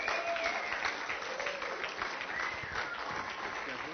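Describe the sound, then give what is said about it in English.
Audience applause welcoming a speaker at a Christian gathering: dense, steady clapping from many hands that holds at an even level throughout. “Would you please put your hands together?”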